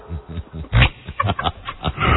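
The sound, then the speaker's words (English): A voice imitates a roar with a rough series of gritty, growling grunts, many short bursts in quick succession that build toward a louder, sustained rasp at the end. “Roar!”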